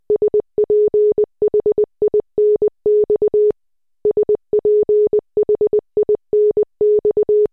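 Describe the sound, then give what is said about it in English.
Morse code beeps spell out the word Sphinx. A steady mid-pitched tone pulses in short dots and longer dashes, with brief gaps between letters and one longer pause partway through. “Each letter of the alphabet turns into a few dots and dashes. The word Sphinx sounds like this in Morse code.”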